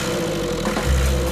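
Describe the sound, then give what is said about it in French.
A turbocharged car engine runs steadily after starting, a continuous mid-pitched rumble that swells with a stronger low throb toward the end. “Les Landes sont fiables et je suis sûr qu'il démarrera du premier coup. Il y a quelques boutons en plus, un coup de démarreur. Bingo. Toujours du premier coup.”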